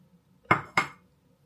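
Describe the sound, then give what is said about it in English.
A spoon clinks twice against a salad bowl while dolloping a dressed-up Greek yogurt topping, two sharp, bright taps close together. “you're just going to dollop a bit of this. Let me bring you in close. Onto your salad bowl.”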